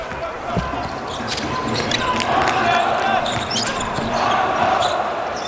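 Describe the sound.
A basketball is dribbled up past half court by a 2.03-metre player in a China national team game, the quick bounces partly buried under crowd noise and excited commentary.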